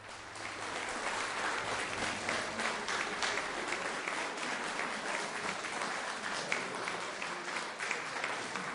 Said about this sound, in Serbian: Publika još uvek pozdravlja izvođenje kompozicije Petera Mahajdika, koji je bio i gost na večerašnjem koncertu.